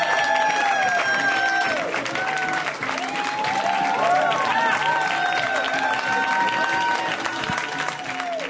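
An audience applauds a comedian coming on stage with dense, steady clapping that stays loud throughout, and a few whoops rise over it.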